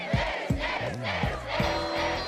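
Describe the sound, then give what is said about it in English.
A crowd cheers, with several voices letting out short, loud whoops and yells that rise and fall in quick bursts. “And with Myrna gone, everyone cheered.”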